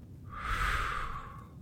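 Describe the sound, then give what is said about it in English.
A slow, deep breath during a calm relaxation exercise: a soft, airy rush that swells and fades over about a second and a half, heard alone with no talk. “Slowly now, take a deep breath in and out.”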